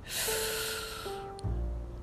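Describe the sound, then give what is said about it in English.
A slow, deep inhale makes a soft, airy rush that lasts about a second, quiet under sustained gentle tones. “Now I want you to take a deep breath in.”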